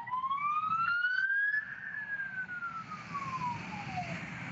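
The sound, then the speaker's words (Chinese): Police car sirens wail as the vehicles advance during a street protest. One long siren tone climbs, then slowly falls, holding steadily loud over a low rumble of traffic. “现在你可以看到，现在警车都在推进哈。”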